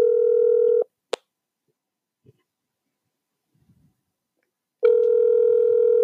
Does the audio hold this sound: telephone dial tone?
yes

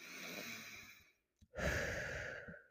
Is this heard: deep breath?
yes

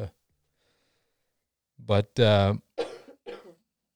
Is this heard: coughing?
yes

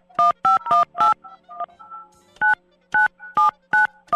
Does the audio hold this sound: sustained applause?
no

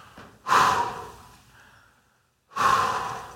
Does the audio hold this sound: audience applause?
no

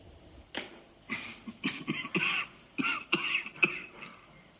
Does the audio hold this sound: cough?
yes

